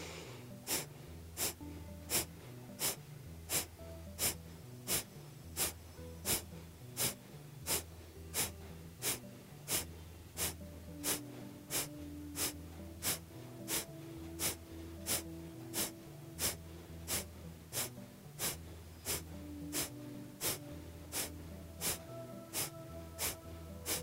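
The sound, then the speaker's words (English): Kapalabhati yoga breathing: many sharp, forceful exhalations snorted through the nose in an even, rapid rhythm of roughly one every two-thirds of a second. Each puff is short and quiet, with no talk over it. “And we'll do that again with the Kapalabhati breath.”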